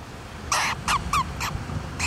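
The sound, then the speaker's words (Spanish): Calls of an Elliot's storm-petrel, a small black-and-white seabird of the coasts of Chile and Peru: five short, harsh, raspy notes in an irregular series, fairly loud and alone. “El paíño de Elliot es un ave marina pequeña de plumaje blanco y negro que habita en las costas de Chile y Perú.”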